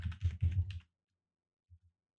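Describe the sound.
Typing on a computer keyboard: a quick cluster of keystrokes, then a pause and two faint, low taps.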